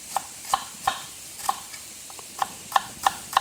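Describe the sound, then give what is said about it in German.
Knife strokes slicing small shallots into thin strips on a board. A steady series of crisp, clicking cuts at a fairly even pace, with a few softer strokes between them over a quiet background. “Ich habe jetzt hier kleine Schalotten genommen. Einfach in dünne Streifen schneiden.”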